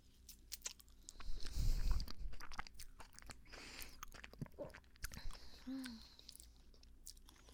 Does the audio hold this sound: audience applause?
no